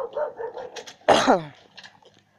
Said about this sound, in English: how many dogs are there in my neighborhood? A lot, apparently.